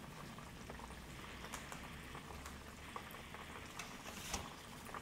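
Shrimp frying in hot oil in a $30 Chefman deep fryer, a faint, steady bubbling fizz with scattered small pops and crackles throughout.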